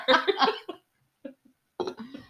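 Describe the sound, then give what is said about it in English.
A woman coughing from nervousness in a few short, husky bursts, with brief pauses between them, alone without talk. “She got so nervous that she started coughing.”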